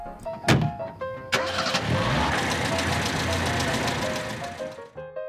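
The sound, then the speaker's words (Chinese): A car engine starts up as detectives drive off in a children's mystery story. A sharp opening burst settles into a continuous mid-pitched engine rumble, with sustained tonal notes running alongside. “他和草莓侦探立刻开车前往伟伟家的点心工厂。”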